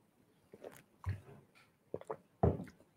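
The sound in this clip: Sips of water, heard as a few soft wet slurps and gulps spaced irregularly across a quiet background.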